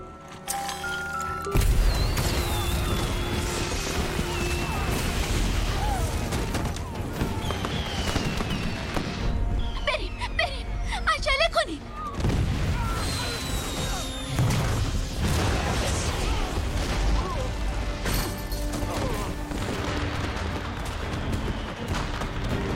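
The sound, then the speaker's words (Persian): Fireworks exploding in a loud, dense, continuous barrage of booms and crackling bangs, with a few whistling streaks mixed through. “دلت برای آتیش بازی تنگ شده؟ دل کی تنگ نشده؟ پس لذت ببر.”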